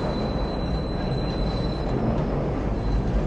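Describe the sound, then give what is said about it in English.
A train approaches with a steady, dense rumble of wheels and carriages, topped by a thin, high whine that fades partway through. No voices are heard. “The train approaches.”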